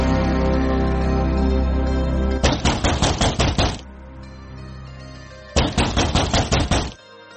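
Knocking on a door comes in two quick bursts of several sharp raps each, separated by a short pause. A sustained tonal sound plays before the first burst.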